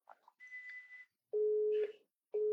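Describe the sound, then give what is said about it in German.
Electronic tones of a telephone answering machine picking up a call: a short blip, a higher steady tone, then a long lower beep and the start of another, clear and alone. “Geh doch mal ran. Nee, ist Anrufbeantworter.”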